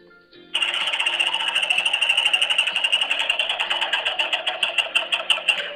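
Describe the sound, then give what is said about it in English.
A prize wheel spinning makes a fast ratcheting clatter that starts abruptly, then gradually slows into distinct, more widely spaced ticks as it loses speed. “So let's get the wheel spinning, and then we can pick out our first onion.”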